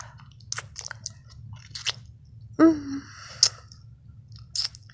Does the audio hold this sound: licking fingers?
yes

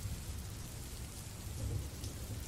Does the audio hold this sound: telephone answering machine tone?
no

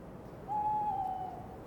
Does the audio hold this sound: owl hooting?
yes

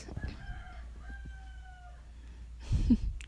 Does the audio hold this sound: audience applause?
no

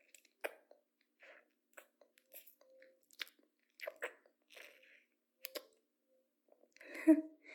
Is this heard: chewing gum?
yes

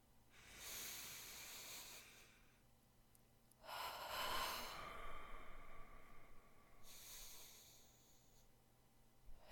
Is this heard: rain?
no

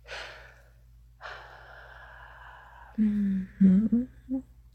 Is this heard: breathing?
yes

